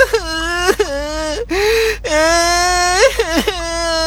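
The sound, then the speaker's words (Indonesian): A small child crying in wailing, sobbing bursts, broken by sharp gasping catches of breath between the sustained cries. “Dan Geppetto mendengar suara anak kecil menangis.”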